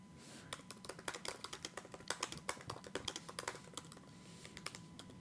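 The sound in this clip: Rapid typing on a computer keyboard as a Google search query is entered, many quick, quiet key clicks in an uneven burst that thins out toward the end.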